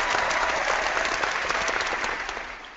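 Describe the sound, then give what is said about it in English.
A studio audience at a wrestling show applauds with steady, dense clapping that fades slightly toward the end. “Again, big love from the studio audience right there.”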